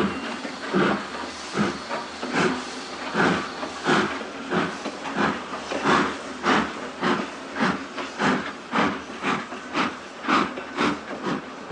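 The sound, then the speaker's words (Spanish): Steam train departing from a station platform in a film scene: a long series of regular, evenly spaced chuffing bursts of hissing steam that keep a steady rhythm throughout. “El revisor le arroja el libro y cierra. El tren parte.”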